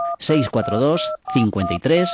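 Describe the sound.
Telephone keypad tones sound in a few steady beeping bursts in a butcher shop advertisement, set against a melodic voice that runs alongside them.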